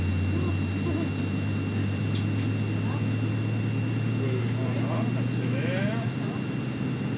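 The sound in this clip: An airliner's engines drone steadily at takeoff power as it accelerates down the runway, a constant low hum and broad roar heard from the cockpit, with a man talking over it throughout.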